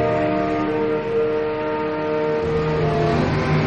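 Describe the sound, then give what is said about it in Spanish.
A line of buses drives through fog toward an airport, making a loud, continuous engine drone with a sustained humming tone that swells slightly near the end. No voices are heard. “Una fila de autobuses surge entre la neblina en dirección al aeropuerto.”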